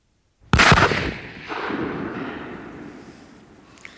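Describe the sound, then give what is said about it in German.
A single loud gunshot cracks out sharply, then fades into a long, slowly decaying rumble that lasts several seconds, with no voices. “verflucht will ich sein, ich schieße.”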